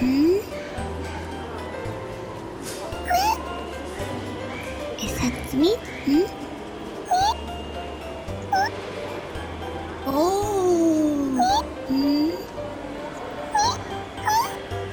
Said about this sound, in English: Are you a cute kitten? Yes? Do you have a cute little nose? And cute little ears?